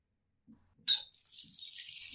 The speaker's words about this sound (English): Check the taps in the sink.